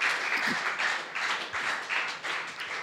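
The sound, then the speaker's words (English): Audience clapping fills the room as a dense, steady wash of many hands, loud and sustained throughout with slight surges in intensity. “friends, it's very nice to clap like this.”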